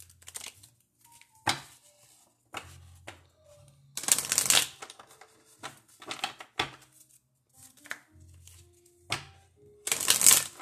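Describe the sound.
A deck of angel oracle cards is shuffled in several separate bursts of papery riffling and flicking, with quiet gaps between them and a few short soft taps.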